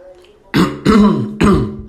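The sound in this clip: A person clears their throat with three loud, raspy bursts in quick succession, each short and rough, after a moment of near quiet.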